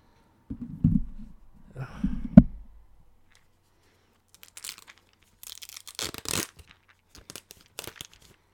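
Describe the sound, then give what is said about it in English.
Peeling the label off the back of a medicine bottle gives a few short, scratchy tearing and crinkling bursts, preceded by some dull low handling sounds, with no voices. “I had to peel the back. I had to peel the freaking back of the bottle.”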